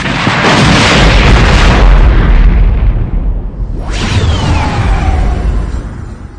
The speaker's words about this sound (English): Any reply Pelion might have sent went untransmitted, as, on the screen before them, the gutted gunship suddenly exploded.